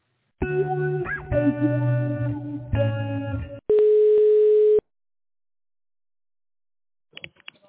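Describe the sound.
Electronic telephone line tones while a call is being transferred: three buzzy, harmonic-rich tone bursts, then one steady plain tone lasting about a second. Silence follows, with a faint brief sound near the end.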